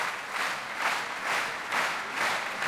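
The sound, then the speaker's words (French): A concert audience at La Roque d'Anthéron applauds to call a piano duo back for an encore, the clapping fairly faint and swelling in steady rhythmic waves. “Vous l'entendez, Ludmila Berninskaya et Arthur Ancel sont rappelés par le public de la Roque d'Antero. Ils reviennent sur scène.”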